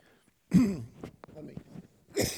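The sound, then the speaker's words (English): A person clears their throat and coughs in a few rough, husky bursts, the first loudest, followed by smaller scraping sounds and another harsh burst at the end. “I need to have a good cough. Right, that's done.”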